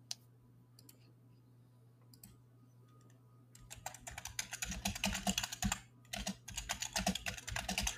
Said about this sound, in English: I just typed really loud.